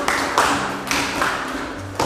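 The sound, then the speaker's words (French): Classroom applause, a few sharp clap accents in a steady rhythm over dense, bright clatter that holds loud throughout. “Très bien, applaudissons.”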